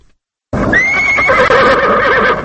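A horse at the Kabul stables of Afghan president Hamid Karzai lets out a loud, high whinny right after a moment of silence. The quavering call is sustained for about two seconds.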